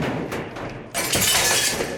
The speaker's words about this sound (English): They're putting glass in, dear.